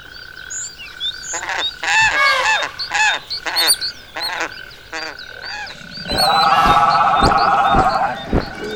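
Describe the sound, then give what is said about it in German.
Calls of moa, giant extinct birds, rendered as harsh goose-like honks in a series of loud bursts, followed by a denser, continuous croaking and honking chorus in the final few seconds. “Riesige Vögel. Ja, das sind die größten Vögel, die jemals gelebt haben. Sie heißen Moa”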